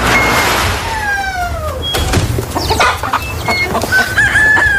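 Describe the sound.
Chickens cluck and a rooster crows in a henhouse, with loud overlapping squawks and drawn-out calls that slide downward in pitch.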